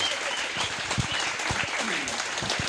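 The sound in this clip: Studio audience applause welcoming a guest, a wine farmer, onto a talk show: thick, continuous clapping with a few sharper individual claps popping out of the steady roar.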